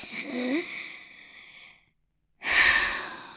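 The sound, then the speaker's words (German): Deep belly breathing with a hand on the stomach: a long, airy breath that trails off, a short silent pause, then a stronger, breathier exhalation. “Legt mal die Hand auf den Bauch und atmet tief ein und wieder aus.”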